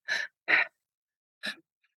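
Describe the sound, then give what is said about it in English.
Fast, deep breaths from a breathing exercise: three forceful, airy rushes of breath, the first two in quick succession, then a pause before the third, with silence between and no talk. “What I love about this breath too is, if you really want to get into like those deep, deep places, you can go really fast.”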